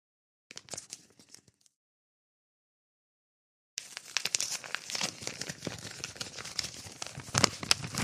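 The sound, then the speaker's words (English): Paper envelopes of letters are torn open. A short burst of ripping and crinkling is followed by a pause, then a long stretch of continuous tearing and rustling paper. “Let's start by opening all of these um, these letters here.”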